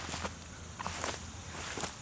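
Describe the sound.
Faint footsteps crunch through grass and brush, still bent over from recent flooding, in empty lots along White's Creek in Nashville. A few soft, uneven steps come with light rustling.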